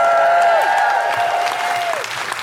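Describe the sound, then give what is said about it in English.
An audience applauds and cheers as a stand-up comedian is welcomed to the stage. The clapping is loud and steady, with whooping voices above it, and it eases slightly toward the end. “And will you welcome to the stage the stand-up of Debra Francis White?”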